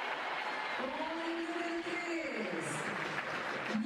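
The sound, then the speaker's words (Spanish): A stadium crowd applauds goalkeeper Emiliano Martínez as the starting lineup is announced, a dense and steady roar of clapping and crowd noise that holds at an even loudness throughout. “Vamos a escuchar el aplausómetro de Emiliano Martínez.”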